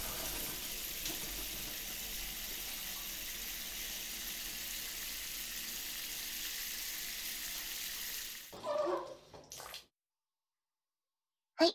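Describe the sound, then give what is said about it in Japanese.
Warm water rinses shampoo out of hair at a salon, a soft steady spray hiss running for about eight seconds before brief rustling handling noises and quiet. “さあ、シャンプーを流していきますよ。お湯がかかりますから、目を閉じてくださいね。”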